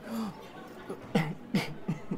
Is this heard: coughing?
yes